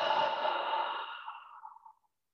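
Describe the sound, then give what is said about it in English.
Someone breathes out through the mouth during a guided breathing exercise: one long, steady exhale that starts strong, then thins and trails off into silence after about two seconds. “Bigger breath in through the nose. Out through the mouth,”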